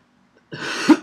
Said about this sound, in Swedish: Jag måste ha harkla, eller?